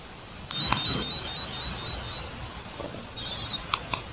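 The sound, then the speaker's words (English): Video game sound effects, originally piezo speaker beeps, reduced to wave and noise channels: a long buzzy high-pitched tone, a shorter one after a pause, then a few quick blips. “We have lots of sounds in the original, but we are only left with wave and noise channels. And let me show you what it sounds like.”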